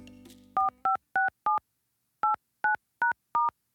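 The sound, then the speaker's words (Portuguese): Telephone keypad dialing tones while placing a call to a friend: eight short, clean electronic beeps in two groups of four with a brief pause between them, after a short burst of noise at the start. “Resolvi ligar para minha amiga Deni Mensa.”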